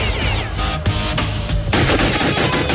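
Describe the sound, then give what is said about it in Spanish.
Loud gunfire rattles in dense, rapid bursts, with the bullets ricocheting off an invisible protective shield covering a gazebo. The harsh, crackling volleys continue without pause. “Las balas rebotan en el invisible escudo protector que cubre la glorieta.”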